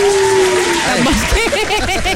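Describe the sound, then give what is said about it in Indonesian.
An audience clapping during a talk about buying branded goods, a continuous patter of claps mixed with voices and light chuckling. “Tepuk lah.”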